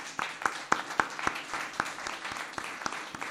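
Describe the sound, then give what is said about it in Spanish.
Audience applause fills a hall at a local civic-centre event: a dense, steady wash of many hands clapping, with sharper individual claps popping out at a moderate level. “Uno de esos primeros aplausos. Vamos a ver si esta sala está viva.”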